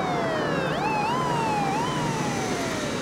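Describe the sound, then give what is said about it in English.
An ambulance siren wails on its own, its tone sweeping up and down in steady cycles at a constant moderate level. “The flashing red lights of a second ambulance grow larger as it approaches.”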